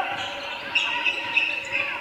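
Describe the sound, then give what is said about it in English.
A basketball is dribbled during a game, giving several dull bounces over a steady crowd murmur while a commentator talks. “Dribbles behind the back, working on Sparks.”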